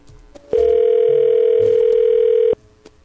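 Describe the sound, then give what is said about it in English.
Telephone dial tone on a prank phone call after the other party hangs up or the cell connection drops: a steady, loud, unbroken tone of about two seconds, alone, with faint line noise before and after. “Oh, he either hung up or cut off.”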